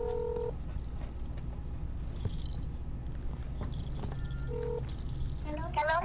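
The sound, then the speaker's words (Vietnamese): Call tones from an iPhone as a phone call is placed: two short electronic beeps, one at the start and one near the end, over steady low background noise. “Em có iPhone, chị đừng có làm ồn. Để em gọi thử.”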